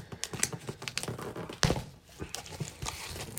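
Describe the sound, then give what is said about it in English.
Packing tape being ripped off a cardboard shipping box: a run of short, scratchy tearing and crinkling bursts, fairly quiet, with one sharper, louder rip partway through. “So, comes in a box, as you can hear, we're kind of ripping the tape off. Yeah, this is the outer box. This is the outer box. The shipping box.”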